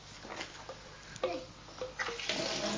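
Water splashes and runs while a drinking bottle is rinsed. The spray is steady with a few brief, louder gushes.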